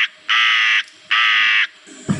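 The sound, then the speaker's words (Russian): Crows cawing: two long, harsh, loud caws separated by a short gap, with fainter bird sounds at the start and a brief new call beginning at the very end. “все тихо, только вороны кричат. Ишь, как разошлись.”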